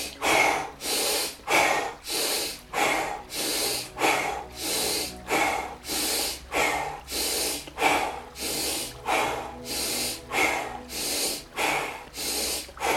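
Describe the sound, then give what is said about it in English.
Deep breathing during an energising breathwork practice, with deep inhales and exhales through the mouth: many steady, evenly spaced breaths with airy, hissing rushes in a regular rhythm, clear and alone without talk. “Again, deeply inhale. Exhale, mouth. Begin again.”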